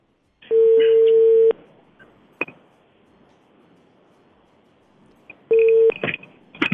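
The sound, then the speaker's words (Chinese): Telephone line tones while a call is placed to a township health centre during a live hotline: two long, steady mid-pitched tones of about a second each, separated by a quiet gap with a faint click, the second tone followed by clatter. “我们继续来拨打一下尾数是021的电话。”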